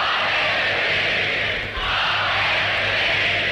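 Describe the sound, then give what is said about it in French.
Peers acclaim Queen Elizabeth II at her coronation with a broad, sustained crowd roar that holds at a steady level, dipping briefly partway through before swelling back to full strength. “Acclamant Elisabeth II, les pères du royaume ont coiffé leur coronette.”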